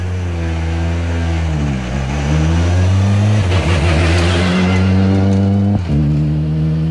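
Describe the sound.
A rally car pulls away from a time control, its loud engine giving a deep, steady harmonic drone with a few brief dips in pitch, heard alone without voices.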